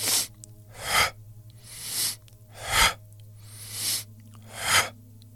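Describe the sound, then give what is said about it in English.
Rapid breathwork: quick nasal inhales and forceful mouth exhales repeat in a steady series of breathy rushes about a second apart, each swelling and fading, over a low constant hum. “It's going to be very quick inhales and forceful exhales, breathing in through the nose and out through the mouth. So it's going to sound like this.”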